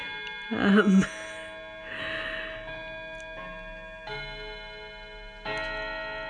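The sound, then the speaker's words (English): Clock striking seven o'clock: a few resonant, bell-like chime strokes at a steady, unhurried pace, each leaving a long sustained ringing tone that carries into the next. “So I've been driving around, and now, as you can hear, it is 7 o'clock.”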